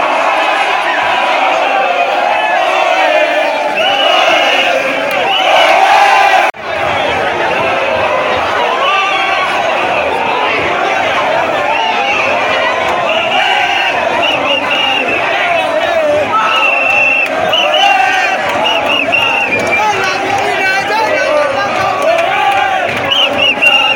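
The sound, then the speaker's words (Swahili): Students cheer and celebrate an election win: loud, continuous crowd noise of shouting, whooping and chatter that runs throughout with no pause, except for one brief dip early on. “Baada ya nusu saa, matokeo yalikuwa tayari, shangwe, vifijo na nderemo vikisikika miongoni mwa wanafunzi wakisherekea ushindi wao.”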